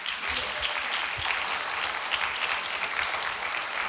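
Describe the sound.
Dense, steady applause from a church audience welcoming a guest speaker to the front, continuous and even for about four seconds with no talking over it.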